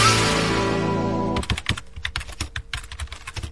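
Typing on a computer keyboard while writing a review of White Labs WLP 400 yeast: after a sustained tonal sound in the first second and a half, a dense, uneven run of clicking keystrokes continues.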